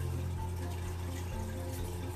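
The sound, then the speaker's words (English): Water running as someone gets some water, a faint, steady stream of even gushing noise that continues unbroken without any talk. “I'm only going to get some water.”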